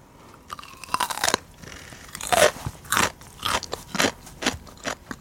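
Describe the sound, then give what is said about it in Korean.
Crunchy food is bitten and chewed, with many sharp, crackling crunches in a steady, uneven rhythm and short pauses between them. “자, 먹어볼게요, 이제.”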